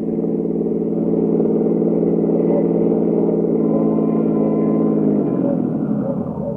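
A car engine drones steadily as the car drives, an even, mid-pitched hum that holds for about five seconds before its pitch drops and the sound eases near the end.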